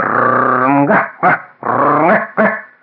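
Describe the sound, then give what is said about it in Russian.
A small shaggy red dog barks, loud and close: drawn-out yowling barks alternate with short, sharp barks. “Снизу из сада на меня залаяла мохнатая рыжая собачка по имени Каштанка.”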